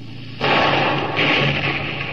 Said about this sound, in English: Put another shot across the bow, Lieutenant. Aye, aye, sir. Four-gun, fire!